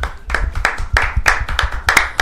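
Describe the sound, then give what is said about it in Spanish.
Audience applause for school directors and teachers at a community event: steady, rhythmic clapping in repeated bursts, fairly loud, with no talk over it. “Bueno, un aplauso para todos los directivos de Puente y para los profes.”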